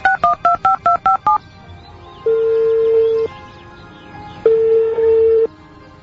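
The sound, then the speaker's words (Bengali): Keypad tones of a mobile phone number being dialed: seven quick, evenly spaced beeps at alternating pitches, followed by two longer steady low tones separated by a pause. “ঠিক আছে দাঁড়াও আমি dial করছি।”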